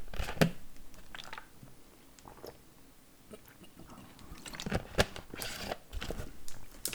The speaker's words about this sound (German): auf diesen Erfolg erstmal einen Schluck Tennessee Sour Mash.